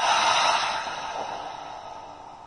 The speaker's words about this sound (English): Final breath, deep inhale. Deep exhale.